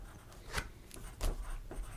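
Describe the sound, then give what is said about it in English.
Notes being jotted down by hand with a pen: faint, scratchy strokes come in a few short bursts over a steady low hiss. “Yeah, I'm just writing down some notes here.”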